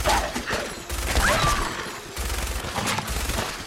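Gunfire from a first-person shooter video game, aimed at a tough enemy creature. Several sustained bursts of rapid, crackling automatic fire are separated by brief pauses, with dense, booming shots throughout.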